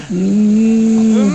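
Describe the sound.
A human voice imitates a cow mooing, one loud, low, sustained moo at a steady pitch that fades off at the end.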